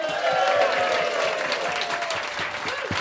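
An audience applauds to welcome a stand-up comedian guest, with loud, sustained clapping and crowd noise carrying evenly through the whole stretch.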